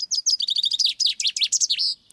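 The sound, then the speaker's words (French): A common chaffinch sings a fast, high trill of crisp repeated notes that descends slightly, building into bright down-slurred phrases and ending in a brief flourish. “Alors là, on a affaire à un... pinson des arbres. C'est ça, un pinson des arbres.”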